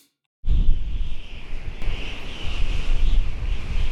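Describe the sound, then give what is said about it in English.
A strong wind blows: a loud, rumbling roar begins abruptly after a brief silence and keeps going, surging and easing in uneven gusts. “That wind. It's crazy. Does it always blow up here like that, Mike?”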